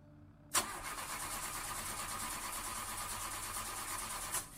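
A car engine cranks without catching, a continuous churning whir that runs evenly for about four seconds after an abrupt start, with no speech over it.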